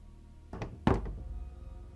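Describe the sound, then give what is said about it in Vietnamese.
Knocking on a door at night: two dull, low thuds about a third of a second apart, the second heavier and louder, followed by quiet. “Tiếng gõ cửa vang lên trong đêm nghe rõ lắm.”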